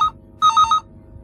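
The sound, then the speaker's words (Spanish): A telephone rings with bright electronic trills. A short chirp comes first, then a longer ring made of three quick pulses, alone over faint background hiss. “Me sobresaltó, ya en mi habitación, el teléfono.”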